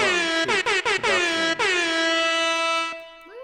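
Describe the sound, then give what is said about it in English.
A loud air horn sound effect blares in a rapid run of short, choppy blasts, then holds one long sustained blast that fades away near the end. “I think I'll put an air horn in there.”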